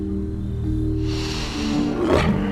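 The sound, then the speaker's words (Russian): A tiger roars with a rough, rising growl that swells in the second half, over sustained low musical tones. “Своим рычанием тигр заставляет Джафара уйти.”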